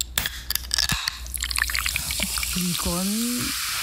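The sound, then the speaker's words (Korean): A drink can of Coca-Cola is cracked open, with sharp clicks followed by a fizzing, bubbling hiss, and then a voice briefly starts speaking. “뭘까요? 그 음료수 캔 따는 소리인데요.”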